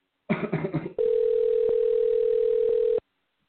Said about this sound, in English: Okay, so it's dialing right now. Okay. Can you hear the ringer?